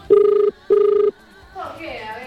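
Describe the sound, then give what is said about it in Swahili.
Ringback tone of an outgoing phone call: two loud, evenly spaced buzzing rings, each about half a second long, followed by a fainter voice beginning on the line. “Tuna wapigia simu kule.”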